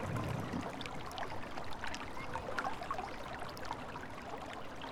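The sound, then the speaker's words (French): Water from a fountain beside a church: a soft, steady trickle and splash that stays faint and even, with no voices. “Nous sommes à côté de la fontaine. Que nous raconte la sensation de l'eau sur notre peau ?”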